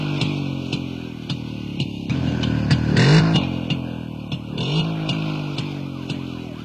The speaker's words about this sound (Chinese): 有警车。